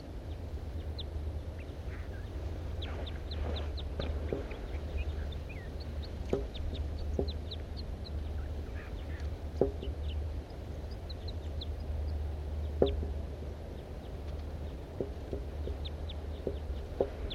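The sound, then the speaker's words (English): Flight calls of a large race male bird perched in an oak tree beside a net site: short, high chirps scattered irregularly over a steady low hum, with a few sharper clicks breaking through. “Pointed now at the large race male. Flight calls of the large race male.”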